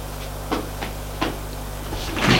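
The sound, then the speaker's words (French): A door in a dark corridor of an old house is opened, with a few faint clicks and knocks over a steady low hum, followed by a soft rustle at the end. “Il ouvre la porte de droite.”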